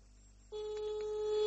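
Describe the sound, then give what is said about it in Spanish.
A telephone call tone on an outgoing call that goes unanswered begins after a short quiet stretch, then continues as a steady, fairly loud, low electronic tone to the end. “Bueno, pará, igual lo estoy llamando a Frati. ¿Para qué lo estoy llamando a Frati? A ver si me atiende”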